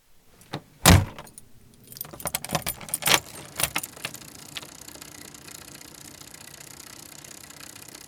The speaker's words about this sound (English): That sound is not me getting shot, by the way. It is, of course, the slamming of my front door and me heading off on my bike